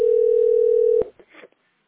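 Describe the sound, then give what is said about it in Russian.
A telephone dial tone heard while placing a call: a steady, single-pitched hum holds for about a second, then cuts off with a click and a brief scrap of rustling noise. “Хорошо, я сейчас звоню насчет этого”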